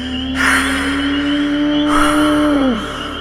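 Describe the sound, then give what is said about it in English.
Wheezing breath, with two slow, airy breaths over a continuous thin whistling tone that slides down in pitch and fades near the end. “Did you hear that? Did I hear what? You're wheezing”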